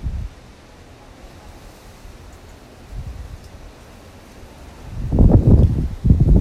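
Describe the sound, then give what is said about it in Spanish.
Strong wind blowing in gusts, a broad low rushing roar with no voices, swelling briefly midway and surging loudest toward the end. “Un viento que arrasa con todo.”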